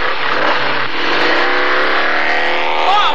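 A motorbike engine revs in a radio drama, a loud, sustained roar that holds steady for the whole stretch.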